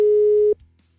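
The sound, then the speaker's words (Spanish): A telephone ringback tone after a number is dialed: one steady, low-pitched tone lasting about half a second, then cutting off to near silence. “Ya está marcando.”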